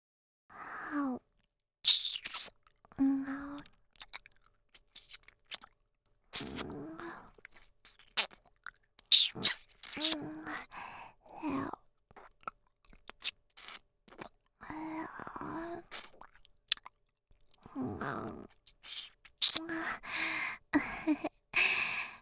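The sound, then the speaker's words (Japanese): Wet licking of an ear by a mouth: soft, irregular smacks, slurps and tongue clicks come in short bursts with breathy sighs between, all quiet throughout. “耳を舐めさせていただきます。耳をこっちに向けてくれますか？”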